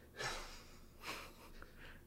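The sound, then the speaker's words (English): Heavy breathing into a microphone, with a few faint, breathy rushes of air, two stronger and one softer, at an uneven pace. “Now you're going to be breathing heavy into the microphone.”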